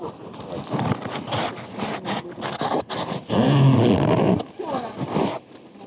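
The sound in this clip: Heavy bags are handled with crinkly rustling, shuffling and scraping, in loud bursts and a longer burst midway, mixed with speech.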